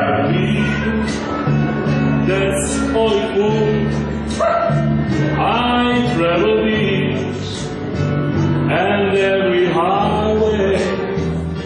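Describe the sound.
Dogs brought by their owners yelp and howl along with an opera singer's song performance at a charity event for abandoned animals, their cries woven through loud, continuous music.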